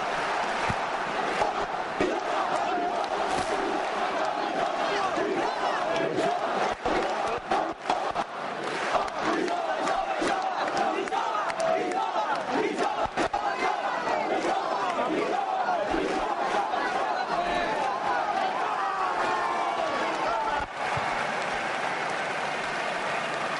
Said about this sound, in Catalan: No sé si me sentiu aquí les celebracions. Ara sí? Vinga, va, sentim que et celebren.